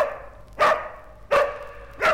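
A dog gives three sharp, evenly spaced barks, loud and alone with no voices.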